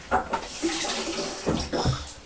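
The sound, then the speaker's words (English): Running tap water rinses a toothbrush, a steady splashing stream broken by a few louder gushing surges as the brush passes under the flow. “just let me rinse it before Jess”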